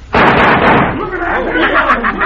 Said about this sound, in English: Now, you see, Johnny Vance. Cisco shoot that poker chip three times before the pieces hit the floor.